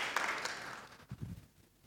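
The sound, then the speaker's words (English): Brief light applause during a church service for children, praising a child who helped with the lighting. The quick clapping fades within a second, followed by faint low murmurs. “Let's clap for Anna. Anna, well done.”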